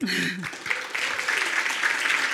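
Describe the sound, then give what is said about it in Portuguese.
Audience applause at an event introducing speakers: a brief voice at the start gives way to a steady, even wash of many people clapping. “Uma salva de palmas.”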